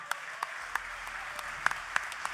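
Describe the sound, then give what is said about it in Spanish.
Scattered hand claps at a blues festival: a handful of sharp, separate claps spaced irregularly over a faint low murmur rather than full, dense applause. “Un gran aplauso para él”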